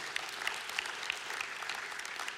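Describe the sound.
A church audience applauds to welcome a couple joining the team, a dense, even patter of many clapping hands that holds steady throughout.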